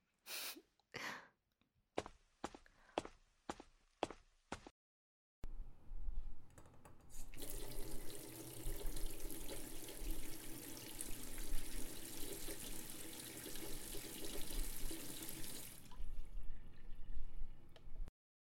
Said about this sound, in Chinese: 我们去洗澡，我去放水